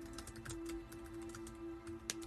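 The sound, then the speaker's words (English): Quick, faint keystrokes on a computer keyboard, tapping in a rapid patter over a steady low hum, with one sharper click near the end. “oh my goodness, I typed in Tales from the Loop and it said season 2. That came up automatically.”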